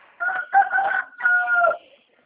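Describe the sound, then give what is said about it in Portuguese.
A rooster crows once in a long, harmonic, strident call broken into several sections and lasting almost two seconds, heard clearly on its own with no talk over it. “Tem um galo cantando de fundo aqui, eu acho que é.”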